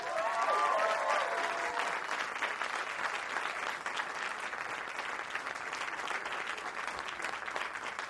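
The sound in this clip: An audience at the Newport Folk Festival applauds to welcome a performer, a dense, even clatter of clapping that holds steady throughout, with a short whistle near the start.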